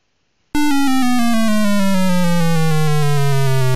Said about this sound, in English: That was the sound of the tabulations display being created.